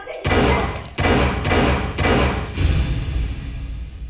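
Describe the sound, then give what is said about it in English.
Handgun gunshots fired by a woman in a kitchen during a domestic disturbance call: several loud, sharp bangs in fairly even succession, each leaving a heavy low rumble that carries on after the final shot. “That was the sound of me getting shot. While I was talking to the man holding the bottle, the woman pulled out a handgun and fired at me.”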